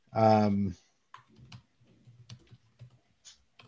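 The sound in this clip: Typing a list on a computer keyboard: a brief spoken phrase first, then a run of faint, irregular key clicks.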